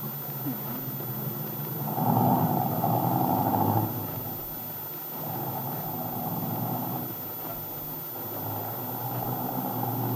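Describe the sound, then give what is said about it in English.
Steady low hum of a car motor running as passengers ride along, a continuous rumble with a midrange drone that swells in three longer stretches and eases between them. No one speaks. “Say, this motor really hums”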